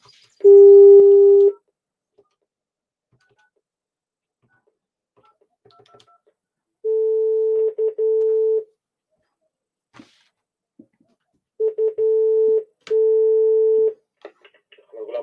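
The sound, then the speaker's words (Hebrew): Steady telephone line tones sound as a call is placed again to the police, with several long, even bursts separated by quiet gaps and a few faint clicks. “אני הולך להתקשר עוד פעם את אחת המשטרה.”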